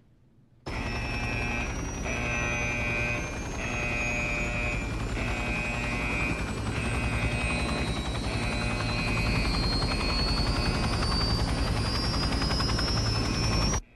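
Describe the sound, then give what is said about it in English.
Helicopters warming up, their engines holding a loud, steady drone throughout while a high turbine whine climbs slowly in pitch as they spool up, with no talk. “Warm up the choppers, we're moving in.”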